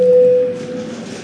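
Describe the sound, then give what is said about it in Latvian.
An electronic voting bell in the Latvian parliament chamber, called before a vote on a liquefied natural gas terminal bill: one steady, bright tone lasting about half a second, then fading into faint room noise. “Lūdzu zvanu”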